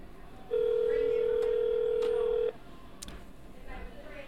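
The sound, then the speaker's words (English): A telephone call rings out as a single steady ringback tone that sounds for about two seconds and then stops, leaving a quiet background. “Let's give John a call and see what John's got going on.”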